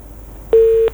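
A telephone busy tone after a dropped call into a live phone-in line: a single steady, mid-pitched beep lasting about a third of a second, clear and alone over faint line hiss.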